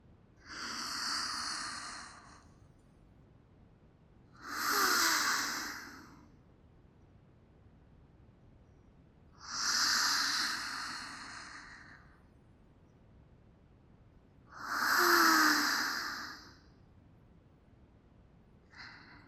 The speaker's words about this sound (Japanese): 私に合わせて深呼吸しながら、肩の力を抜いてください。